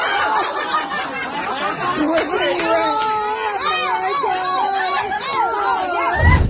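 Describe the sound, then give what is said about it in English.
A baby fusses and cries through a rambunctious nappy change in Australia. The wavering, rising-and-falling whimpers sit over a busy background of chatter. “That's a rambunctious nappy change. Changing your baby's diaper.”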